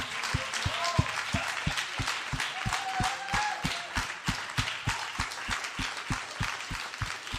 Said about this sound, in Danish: Skal vi give Helle en kæmpe hånd og sende hende godt afsted til en fredfyldt overlov.